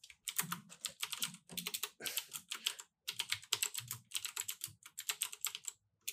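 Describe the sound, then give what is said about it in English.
Quiet, steady typing on a computer keyboard into an online document, with quick bursts of key clicks broken by short pauses. “I'm typing a thing into the Google Doc. Cause I forgot to do a thing.”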